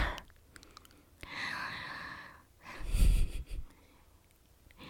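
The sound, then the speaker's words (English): Close breathing into someone's ear: two soft, airy breaths, the second louder and carrying a low rumble from being so near, then fading to quiet. No words are spoken. “I love when you shiver like that when I breathe in your ear.”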